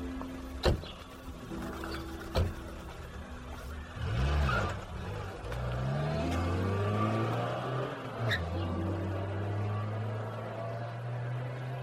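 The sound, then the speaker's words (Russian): Police militia car driving: a quiet engine hum whose note shifts up and down as it moves, broken by a few sharp knocks and clunks. “Милицейская машина привезла ребят в город.”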